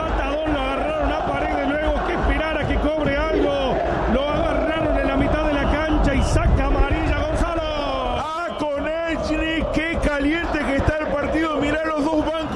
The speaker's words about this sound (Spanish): Se levanta el público en Rosario, no es la Bombonera, es el gigante de Arroyito. Esto es la hinchada de Boca que canta en los micrófonos de Cadena 3 Argentina.